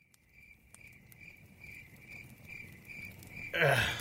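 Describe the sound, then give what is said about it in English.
Field crickets (Gryllus pennsylvanicus) chirp at night beside a campfire in a steady, high, pulsing trill that repeats evenly throughout. A sudden louder burst of broad noise breaks in near the end. “What, the crickets? Oh, that's just Gryllus pennsylvanicus chirping through a process called”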